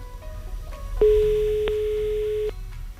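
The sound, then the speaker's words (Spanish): A telephone dial tone: one steady, unbroken mid-pitched hum that switches on, holds for about a second and a half with a small click in the middle, then cuts off. “Pipiri, piri, piri, pipi, pipi, pipi. A ver si ya tono. Ahí está.”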